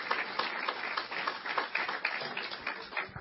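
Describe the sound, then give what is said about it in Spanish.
Applause from a church audience, a dense, steady patter of many hands clapping at moderate volume for a few seconds, with no voices standing out. “Démele aplauso al Señor. Give the Lord a round of applause.”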